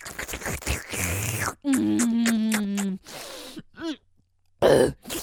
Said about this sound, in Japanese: あーむせる